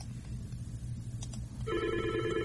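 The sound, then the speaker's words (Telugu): A telephone begins ringing with an incoming call partway through, a steady, fairly faint electronic tone that rises over a low background hum. “అదిగో call వచ్చేసింది.”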